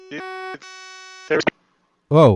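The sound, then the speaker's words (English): Two electronic beeps sound, a short one and then a longer one, both steady and buzzy in tone. Brief bursts of speech follow. “I got a lot of beeps there.”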